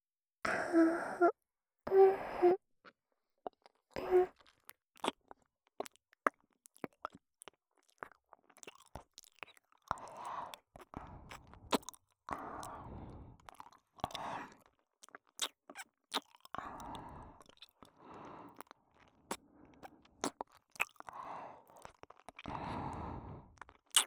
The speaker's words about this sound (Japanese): お耳の隅々を舐めていきますね。それじゃあいただきます。